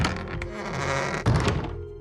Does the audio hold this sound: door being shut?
yes

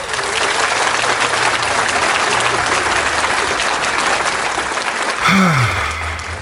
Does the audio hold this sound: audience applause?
yes

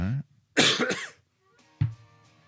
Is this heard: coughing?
yes

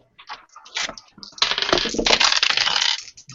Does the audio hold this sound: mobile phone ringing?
no

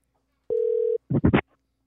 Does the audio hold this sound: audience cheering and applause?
no

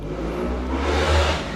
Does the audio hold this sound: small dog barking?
no

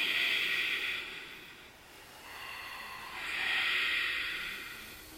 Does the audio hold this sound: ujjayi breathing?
yes

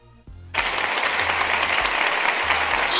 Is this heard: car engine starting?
no

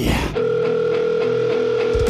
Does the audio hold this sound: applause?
no

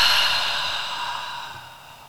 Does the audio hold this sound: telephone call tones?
no

